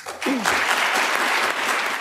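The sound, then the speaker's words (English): Applause in a barbershop: many hands clap together, starting abruptly just after the start and staying loud and steady to the end. “I mean, you can see why the whole barbershop burst into applause.”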